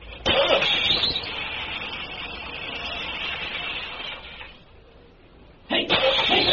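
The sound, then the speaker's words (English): Car engine cranking and running after being hot-wired, with a freshly charged battery and a bled fuel filter and injectors. A steady, rough, loud roar runs for about four seconds, drops to a quieter idle, then surges loud again near the end. “All set to hot wire and crank it up.”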